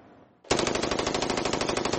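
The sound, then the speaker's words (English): Rapid automatic gunfire from a rifle fitted with a bump stock. A dense, evenly spaced stream of many loud shots starts abruptly after a quiet half second and continues without pause to the end. “Bump stocks are aftermarket additions that allow weapons to fire hundreds of bullets a minute.”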